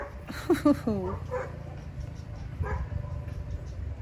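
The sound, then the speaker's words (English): Dogs playing outside, giving a few quick yips and whining calls early on, then fading into a low, murmuring background. The animal sounds are brief and fairly faint. “some dogs playing outside”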